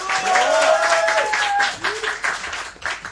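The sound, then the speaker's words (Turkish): Audience applause for an orchestra, with dense clapping that is loud at first and then thins and wavers toward the end. “Orkestra arkadaşlarım için de alkış.”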